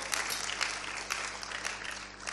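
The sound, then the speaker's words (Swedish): Congregation applause for a worship band at a Sunday church service: dense, steady clapping from many hands, fairly faint and sustained throughout with no talk over it. “Men jag tycker ni ska ge en jättestor applåd åt ert fina lovsångsband här och er sångare.”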